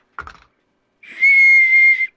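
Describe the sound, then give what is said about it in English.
A whistle built into the handle of a beer mug sounds one sustained, shrill, steady high tone lasting about a second, loud and alone. “And then it says, whistle for your beer. And it has a nifty little whistle built right into the handle.”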